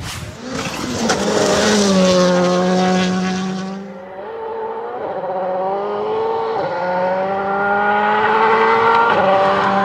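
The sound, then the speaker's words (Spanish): Rally cars racing on a dirt stage of the San Marino gravel rally in Italy, their engines revving loudly with pitch rising and dipping through gear changes. A broad rushing noise fills the first few seconds. “Vamos a ir al rally italiano, San Marino. Rally de tierra, linda carrera, ganó Griassin, el ruso”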